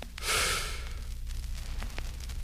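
A deep breath drawn in sounds as a short, loud rush of air lasting about half a second. Quieter, steady breathy noise follows.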